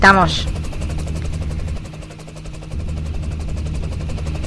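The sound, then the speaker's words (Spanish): A helicopter's rotors turn as it prepares to take off on a windy day in Mar del Plata, giving a rapid, even thudding chop over a low engine hum. A brief voice sounds at the start, and the sound dips midway. “vamos caminando nosotros ya hacia nuestro helicóptero, que está a punto de salir de aquí rumbo.”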